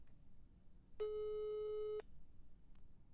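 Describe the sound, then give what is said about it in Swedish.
A telephone ringing tone sounds once while a call is placed: a single steady electronic tone lasting about a second over low background hiss, then quiet hiss again. “Jag provar ringa henne.”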